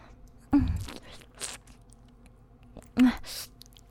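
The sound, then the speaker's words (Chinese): Crunchy bites into a spicy homemade sausage: two sharp, loud crunches with softer chewing noises between them and no talking. “我在吃香肠呢。有点辣。”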